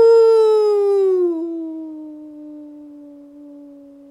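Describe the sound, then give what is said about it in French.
A wolf howls in the mountains: one long, sustained cry that glides down in pitch partway through, then holds a steadier lower tone while slowly fading. “Elle tressaillit, puis ce fut un hurlement dans la montagne.”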